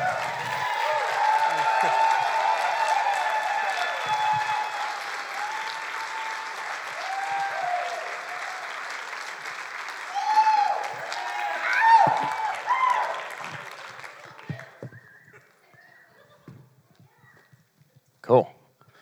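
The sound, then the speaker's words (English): Audience applause welcoming a speaker onto the stage: dense, sustained clapping that swells slightly mid-way, then thins out and dies away toward the end, with a brief isolated sound just before it closes. “will you please give a huge hand to Mr. Dan Weber.”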